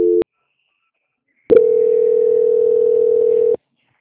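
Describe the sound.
A telephone tone marks a call transfer: a short beep, a pause of over a second, then one loud, steady mid-pitched tone holding for about two seconds before stopping abruptly.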